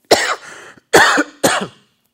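A person coughs three times after swallowing something the wrong way during a Bible lesson. The coughs are loud, harsh bursts separated by short pauses, and the first trails off into a rasp.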